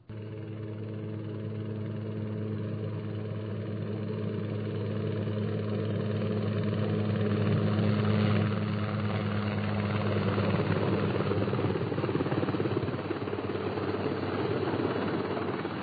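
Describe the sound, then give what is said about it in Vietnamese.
Helicopter rotor blades beat from afar in a steady, throbbing chop over a low engine drone, growing slightly louder through the middle and then holding a fairly constant level. “Hoài nghe có tiếng cánh quạt trực thăng kêu phành phạch từ đằng xa vọng lại.”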